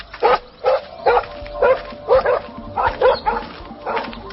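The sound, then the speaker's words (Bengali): Barking from a pet dog that has turned violent: about ten sharp, loud barks in a fast, steady rhythm, each short and forceful, with brief gaps between them and no voices. “পোষা কুকুরটা violent হয়ে গেছে, ওকে tranquilliser দাও।”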